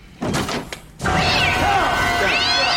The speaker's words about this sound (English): That cat been waiting on there for 20 minutes.